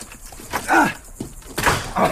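A locked door being forced open in a radio drama, a few heavy thuds and dull scraping knocks in uneven succession.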